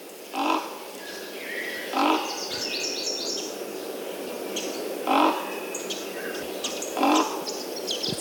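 A raven gives four deep, hoarse croaks, spaced a second or more apart, standing out over a background of lighter chirping from smaller birds.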